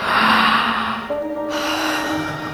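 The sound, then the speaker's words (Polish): A girl gives a big morning yawn: a loud, breathy intake that stretches out and then turns into a drawn, voiced tone before fading. “Dziewczynka przywitała nowy dzień siarczystym ziewnięciem.”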